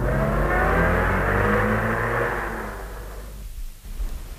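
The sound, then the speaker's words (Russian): Car engine drones loudly as the vehicle pulls away, a steady motor tone that gradually fades and drops to a quieter level near the end, with no voices. “Захлопнулась дверца, и машина уехала.”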